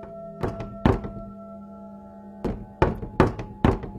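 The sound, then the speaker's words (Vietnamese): Knocking on a wooden window facing a garden: two dull thunks, a pause, then four more in a steady rhythm, over a low constant hum. “có tiếng gõ cửa cộng cộc cộng cộc.”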